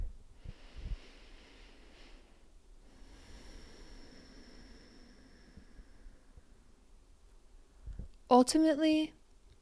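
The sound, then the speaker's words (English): A slow, deep breath, a faint, drawn-out airy inhale and exhale over several seconds, followed by a voice starting to speak at the end. “And so what I'll do is I'll just take a deep breath.”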